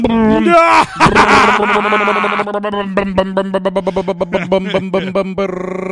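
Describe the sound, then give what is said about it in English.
A voice imitates a flooded car engine starting in stages: a groaning, strained crank first, then many rapid rhythmic chugging pulses, ending in a steadier droning tone. “I just fired up the podcast engine. That's the most vocal voiceover sound effects works I've ever done in my life, right there. Is it? Yeah. I just did an engine in its various stages”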